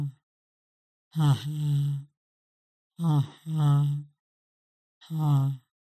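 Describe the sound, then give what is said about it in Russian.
Short nasal inhales followed by light, hot exhales through an open mouth, heard as four breathy, voiced "ha" sounds in a slow rhythm with silence between them. “Это, по сути, легкий горячий выдох небом после короткого вдоха носом. Только не закрывайте рот.”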